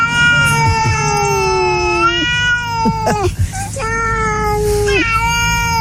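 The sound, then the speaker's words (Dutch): A cat yowls at night in a garden, giving several loud, drawn-out, wailing calls with wavering, tonal pitch. Some calls slide downward at their ends, with brief breaks between them. “Dit hoor ik wel eens 's nachts bij mij in de tuin. Oh ja, inderdaad. Het klinkt ook een beetje zielig. Ja, ja, ja. Nou, we gaan het hebben over katten.”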